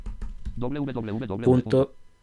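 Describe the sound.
A few sharp keystrokes sound on a computer keyboard as a web address is typed into a browser, followed by a person speaking.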